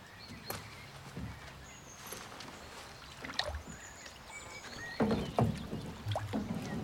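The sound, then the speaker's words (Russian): Oar strokes as a girl rows a boat: faint, irregular splashes and water gurgles, growing a little stronger toward the end, over a soft background hiss. “Девочка села в лодку. Взяла весло и начала грести.”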